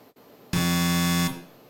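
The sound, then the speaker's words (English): A quiz show contestant's buzzer being tested sounds once: a loud, harsh, steady electronic buzz lasting under a second that stops abruptly. “So, if you're ready, let's test your buzzers”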